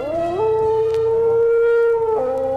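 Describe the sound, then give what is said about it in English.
A werewolf's growling challenge as an audio drama effect, from a powerful gray werewolf: one loud, sustained, howl-like roar whose pitch steps up at the start, holds steady and drops near the end. “A second werewolf, a powerful gray werewolf, now rumbles its challenge to Erica.”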